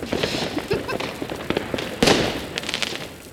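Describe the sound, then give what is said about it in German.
A handheld crackling sparkler-type firework fizzing and popping in a dense, rapid stream of sharp crackles, with a louder burst of crackling about two-thirds of the way through. “Das ist wie eine Wunderkerze auf Speed. Knaller.”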